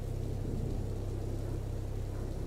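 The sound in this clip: Heavy rain pours down as a dense, unbroken hiss with a low rumble beneath it, steady and fairly quiet throughout, with no voices.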